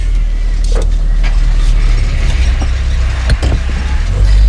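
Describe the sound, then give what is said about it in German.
Car engine rumbling as the vehicle pulls off in pursuit, a loud, low, steady drone with a few scattered clicks and knocks and a heavier low rumble near the end. “Es geht weiter. Los, wir fahren hinterher.”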